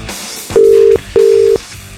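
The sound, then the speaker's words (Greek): An outgoing telephone call produces two steady, mid-pitched ringback tones, each under half a second, separated by a short pause. The tones stand alone with no talk. “Έλα, βρε Μαράκι, σηκώσε το.”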